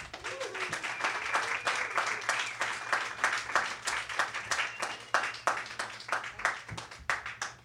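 Audience applause for a featured reader at a poetry reading before an open mic, a quiet but steady patter of many hands with individual claps pulsing through.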